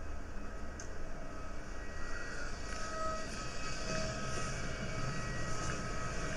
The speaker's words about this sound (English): I've just landed at Wakkanai Airport and I've never been here before.